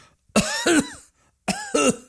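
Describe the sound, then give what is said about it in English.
A person gives two pairs of short, loud coughs, each cough with a voiced, throaty tone, separated by a brief silent pause. “So cough instead of clearing your throat.”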